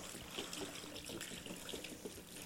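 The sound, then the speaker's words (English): Water pours steadily into a container holding ping pong balls, a continuous rushing, splashing stream at even loudness throughout, with no talk. “as I fill this up with water”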